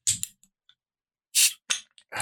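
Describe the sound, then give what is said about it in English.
A cold can of Guinness being cracked open: a few sharp clicks, then a short, loud burst of hissing, followed by more brief snaps and fizzing. “Now let's crack open this cold beer and let's get after it. It's our St. Paddy's Day episode, which means we've got some Guinness in the house.”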